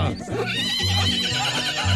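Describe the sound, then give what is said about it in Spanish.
A mare on a farm gives a loud, long, quavering neigh that runs through the whole clip. “Dice uno caballos, ahí mismo relincha la yegua de aquí, Sandrita.”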